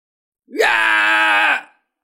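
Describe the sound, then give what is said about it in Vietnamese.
A golden rhinoceros crying out loudly: one harsh, drawn-out bellowing cry of about a second, rising sharply at the start and then holding steady before fading, heard alone. “Kim Giác Tê kêu to sởn cả tóc gáy, lập tức hóa thành hình dạng ban đầu, trở thành một con tê giác màu vàng”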